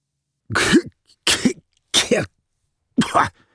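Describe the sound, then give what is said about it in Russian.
Men cough after a grenade explosion, with four separate harsh, throaty coughs spaced out by short silences. Each burst is brief and forceful. “Лежа на земле, в паре метров от ближайшего к ним взрыва, откашливались сталкеры, приходя в себя.”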